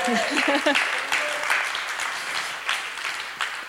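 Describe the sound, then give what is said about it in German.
Audience applause: dense clapping from many hands that eases slightly over the few seconds, with a voice heard briefly at the start. “Ja, jetzt habe ich vor lauter Klatschen den Faden verloren.”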